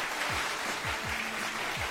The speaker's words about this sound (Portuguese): Palmas.